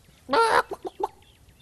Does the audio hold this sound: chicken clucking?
yes